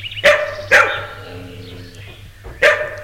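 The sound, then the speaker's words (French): Two huge dogs barking: three loud, deep barks, the first two close together and the third after a longer pause. “Deux énormes chiens aboient.”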